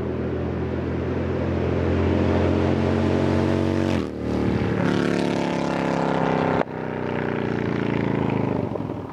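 Motorcycle engine running, not a Harley-Davidson Milwaukee-Eight, giving a steady, loud, droning hum with two brief dips in the sound partway through.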